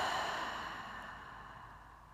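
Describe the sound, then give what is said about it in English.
A big, slow breath taken during a guided breathing cue: a soft, airy whoosh that gradually fades out, faint and alone, with no talk over it. “So breathe that in, big inhale. And exhale.”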